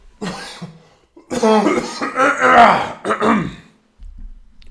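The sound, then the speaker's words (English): A man clears his throat directly into a microphone in several harsh, rasping bursts with grunting effort. They are loud and rough, separated by short pauses. “I shouldn't be trying to clear my throat directly into a fucking microphone.”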